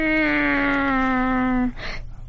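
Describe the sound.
A human voice imitates a cat's meow with one long, loud, steady-pitched tone that stops abruptly and is followed by a short breathy noise.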